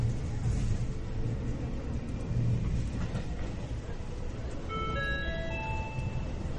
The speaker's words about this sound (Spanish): viajando en la línea Frevitec, cuyo nombre hace honor al ingeniero mecánico e inventor británico Richard Frevitec quien construyó la primera locomotora en 1804. Que disfrute de su viaje.